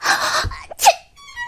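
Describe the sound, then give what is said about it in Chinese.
A single sneeze for a rabbit character in a children's story: a breathy build-up, then one sharp explosive burst that quickly fades. “彼得一时没忍住，打了个喷嚏”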